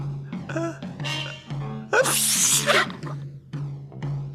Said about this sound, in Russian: Ну что, мне чихнуть нельзя?